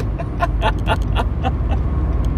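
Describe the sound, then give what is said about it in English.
A car driving home on the road, heard from inside as a steady low road rumble and engine hum that fills the whole stretch, with a few faint clicks on top and no talking. “I'm driving home”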